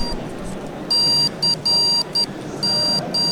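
Electronic beeps from a battery-powered kit assembled from parts: six shrill, high-pitched tones in an uneven rhythm, some long and some brief, over a low background hiss.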